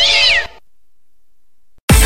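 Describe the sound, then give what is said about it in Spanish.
A cat meows once: a single high, falling cry lasting about half a second, clear and fairly loud, followed by silence. “Deja que pase el gato.”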